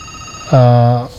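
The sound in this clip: A single telephone ring signals an incoming caller, a loud, steady buzzing tone lasting about half a second over a low background hum.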